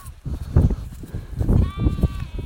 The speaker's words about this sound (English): Are these Swaledale? Let's have a look. No? Yeah, some are Swaledale. as you can hear. Lots of lambs.